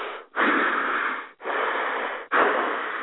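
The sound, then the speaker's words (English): A person imitates heavy breathing into a phone: three long, raspy, wheezy breaths in a steady rhythm, each separated by a brief pause, with a thin, band-limited quality and no words. “the people they texted is calling them, and then when they pick up the phone, they just breathe like”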